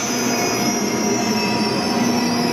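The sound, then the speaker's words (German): Train at Offenburg railway station on the Black Forest line, with a loud, continuous high screech of wheels on the rails over a steady rumble and no voices. “Los geht's am Bahnhof Offenburg.”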